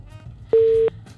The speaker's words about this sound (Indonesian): Terputus. Dicoba lagi pendengar.